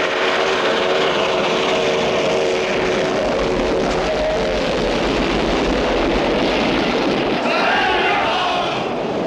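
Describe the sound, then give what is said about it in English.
A four-car train hurtles past on a parallel track: a loud, continuous roaring rush over a steady low rumble, with a whistling tonal drone early on and a slight swell near the end. “another train hurtles toward them on a parallel track.”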